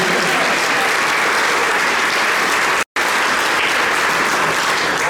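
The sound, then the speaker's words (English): Dense, loud applause from an audience during a Sunday church service, sustained evenly throughout with a brief dropout near the middle. “For her, will you clap, say amen?”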